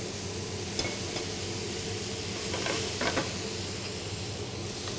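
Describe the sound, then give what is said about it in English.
Green beans and black beans stir-fry in a hot pan, giving a faint, steady sizzling hiss with a few light scrapes or clinks. “I can see that they're now hot and cooking. I will add my black beans, 1 cup of black beans.”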